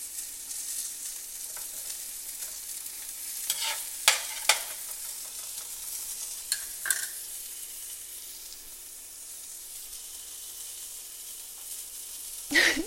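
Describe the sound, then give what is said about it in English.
Eggs frying and being stirred in a pan: a steady, soft sizzling hiss with a few sharp scraping clicks from the stirring in the middle and one more at the end. “Ooh, it smells so good. And the eggs should be finished soon.”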